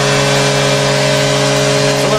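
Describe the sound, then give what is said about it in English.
The end-of-game horn at an ice hockey match between the Vancouver Canucks and Chicago Blackhawks blares as one loud, sustained, steady-pitched tone that holds for the whole clip over a noisy background. “2 seconds left in the game. Kara crossing the Canuck line. Leaves it for Bork in the circle. He was pushed off the puck and drives to set it down. There's the horn.”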